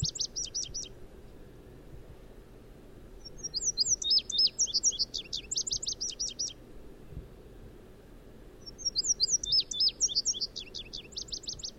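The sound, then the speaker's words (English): Indigo Bunting song recorded in Iowa: three bursts of high, paired, sweet chirping notes separated by pauses, each phrase a quick jumble of slurred tweets heard over a low background rumble. “So there's song number 1 of the Indigo Bunting.”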